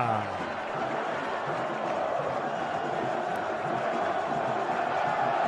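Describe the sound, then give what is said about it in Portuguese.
Santos fans celebrate a goal at Vila Belmiro stadium. A dense crowd roars, chants and cheers at a steady, sustained loudness throughout. “Sobe som da Vila Belmiro, é festa do torcedor santista!”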